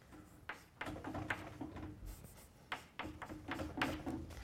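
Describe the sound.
Handwriting strokes scratch out a mathematical note in several quick bursts of dry, scraping sound, with short pauses between them and no talk.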